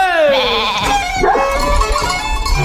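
Sheep bleat in a flock. A wavering, nasal bleat slides down in pitch and is followed by further overlapping bleats, loud and clear.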